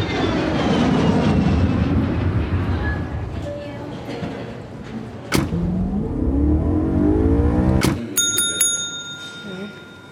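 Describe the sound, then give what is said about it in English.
An airplane landing sound effect: a loud, continuous engine roar broken by two sharp thumps, then a bright, ringing bell-like chime near the end as the roar cuts out. “Flight 381 requests permission for landing.”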